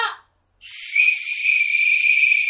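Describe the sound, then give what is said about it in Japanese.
A flute or whistle blown as a signal: one long, steady high note that begins after a brief burst of noise and a short silence, then swells a little and holds level to the end. “笛の音が”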